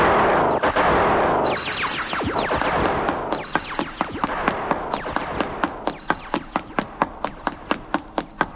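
Gunshots in a long run of sharp cracks, irregular and overlapping at first, then settling into an evenly spaced volley of many loud reports.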